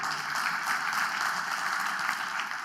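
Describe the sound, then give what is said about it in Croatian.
Audience applause in a hall during a humorous talk, a dense, steady wash of clapping that holds at an even level for the whole stretch with no voices on top. “dajte pljesak, da, jer je baš smiješno to”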